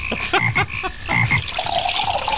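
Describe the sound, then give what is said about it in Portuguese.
A comic sound effect of a frog drinking tubaína soda opens with a few throaty croaks. A wet, watery gurgle follows, running steadily to the end. “É o que é um sapo bebendo tubaína?”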